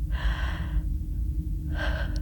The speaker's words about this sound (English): I took a step and buckled over, wheezing.